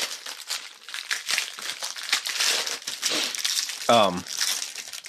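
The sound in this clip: Crinkling and rustling of packaging as a box of individually wrapped snacks is opened, the crackly scraping continuous throughout, with a brief voice sounding near the end.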